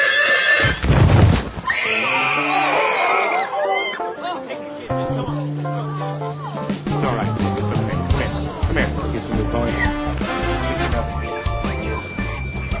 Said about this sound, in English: A pony!